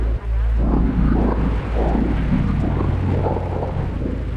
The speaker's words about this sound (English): And slow yourself with the fan as it powers down.